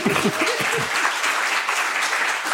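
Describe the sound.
Audience applause after a lecture at a panel discussion, a steady even wash of clapping at moderate loudness, with a voice briefly audible at the start.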